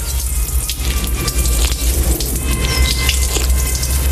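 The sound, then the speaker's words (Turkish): Water runs steadily from a marble public drinking fountain, a continuous loud splash and patter with no breaks and no voices. “Buradan güzel güzel su içiyor insanlar. Ben de içeyim efendim Terkos'ta olsa.”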